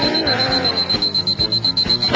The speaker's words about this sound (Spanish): Voy a tener que cobraros por el servicio despertador. Ya son las 4. Sí. No puede ser. Venga. Seguro que le has dado mucha cuerda y se ha embalado.